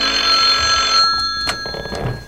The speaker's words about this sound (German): Einige Stunden später klingelte bei Beefy Tremaine das Telefon.